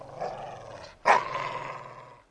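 A dog growls low, then gives a sudden loud bark-like burst that trails off, in a children's story scene where a dog meets a cat.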